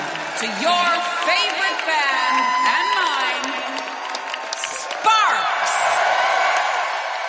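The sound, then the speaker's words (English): An audience at an album event cheers, whoops and applauds to welcome guests. Excited shouting voices rise and fall over scattered clapping throughout. “Please put your hands together and give a big lunar welcome”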